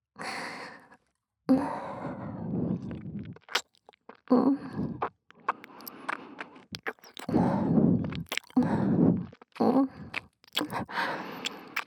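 Soft ASMR mouth sounds of nibbling on an earlobe: breathy sighs, wet smacks and light clicks in irregular bursts separated by short pauses, with no talking.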